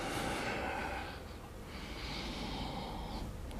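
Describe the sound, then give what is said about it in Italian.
Faint breathing in during a floor exercise routine. There are a couple of soft, airy swells of breath with a brief lull between them, and no talk. “Inspiro”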